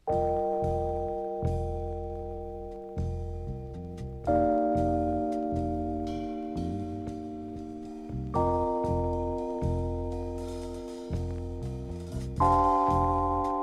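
Rhodes electric piano played without vibrato: clean sustained chords struck in a slow, regular pattern, each attack fading away, with bass notes moving below and a steady tone with no wavering.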